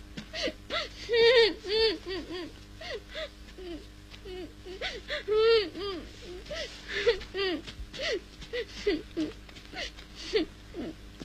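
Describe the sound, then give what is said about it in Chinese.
A child cries in a staged drama performance: repeated wavering, whimpering sobs in irregular bursts, rising and falling in pitch, moderately loud over a low background hum. “为什么哭啊？”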